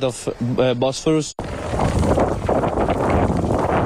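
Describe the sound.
Wind from the strait sweeps over a sailing race course as a loud, steady rush buffeting the microphone, following a brief stretch of someone talking.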